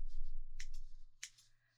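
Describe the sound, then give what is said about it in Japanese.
Scissors cut hair in a few quiet, crisp metallic snips, faint over a low steady hum that fades toward the end. “このように私が坊ちゃまの髪を切るのも15年を超えましたね。”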